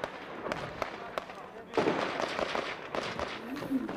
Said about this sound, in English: Now watch here, a Taliban appears here. It's shot at, right? Is obviously hit.